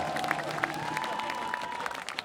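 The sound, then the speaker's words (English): A crowd applauding at a protest event held at a concert hall, with steady clapping and some cheering, while a held tone runs through the first two seconds. “A round of applause for Manhunt!”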